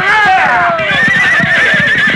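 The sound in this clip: Horses neigh loudly in shrill, wavering whinnies during a Western chase, with a steady patter of hoofbeats running beneath them throughout.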